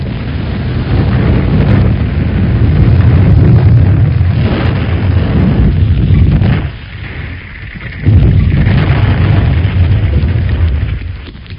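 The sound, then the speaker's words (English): Barrels of damp gunpowder, set to dry by a fire, explode in a loud, sustained roaring rumble that briefly drops away before surging back just as heavily. “Here, our gunpowder exploded.”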